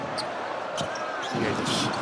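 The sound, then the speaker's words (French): Basketball dribbling during a professional game as a player makes a crossover, with a few dull ball bounces under steady, loud crowd noise in the arena. “Lamar Stevens, le joli dribble croisé.”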